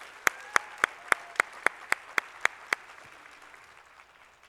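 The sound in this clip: Ten sharp hand claps from a church audience welcoming a guest speaker, crisp and evenly spaced in a steady rhythm, followed by a soft fading wash of background noise.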